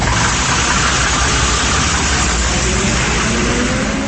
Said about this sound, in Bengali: এখন সে ঢাকা টু সিলেট বাসে চেপেছে।